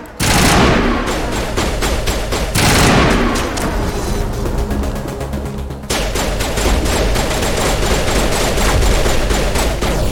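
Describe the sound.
Rapid gunfire from a space-themed shooter video game: a loud, dense stream of shots and blasts runs almost without pause, broken only by two brief gaps, one early and one partway through.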